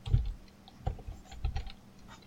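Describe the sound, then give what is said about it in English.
Soft clicking of keys on a computer keyboard during an online tabletop role-playing game session: a few scattered keystrokes and short bursts, faint and alone. “here I am typing the wrong things again”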